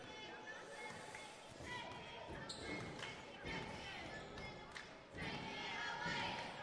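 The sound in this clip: A basketball dribbled on the court during a boys' basketball game, its repeated thuds mixed into crowd noise and voices.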